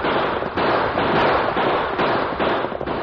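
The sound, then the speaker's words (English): Outlaws' guns firing during a stagecoach holdup: a dense, loud barrage of crackling shots that runs almost unbroken, with brief dips in loudness and no talk. “Three outlaws hold up stage. Yes, use your guns.”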